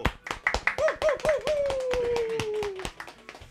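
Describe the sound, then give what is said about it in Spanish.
Studio audience applause on a TV talk program: brisk, evenly spaced claps over a few seconds, with a voice calling out a long, slowly falling cry above them. “¡Vamos, un aplauso!”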